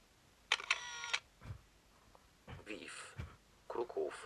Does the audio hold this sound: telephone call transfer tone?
no